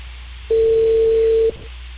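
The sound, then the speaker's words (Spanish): A telephone tone sounds as someone places a call: one steady, even-pitched tone lasts about a second and stands alone over a low background hum. “Espera, estoy llamando a Lisa.”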